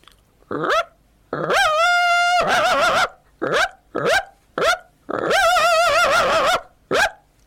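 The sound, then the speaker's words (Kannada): A puppy yelps in pain, as after being struck by a thrown stone: several short, sharp high yelps alternate with two long, wavering whining cries, loud and alone. “ಮತ್ತೆ ಅದು ನಾಯಿಗಳಿಗೆ ಏನಾದರೂ ಕಲ್ಲೆಸೋದು ಅದಕ್ಕೆ ಏನಾದರೂ ನೋವಾದರೆ ಅದು ಈ ರೀತಿ ಗಿರಿಚುತ್ತೆ.”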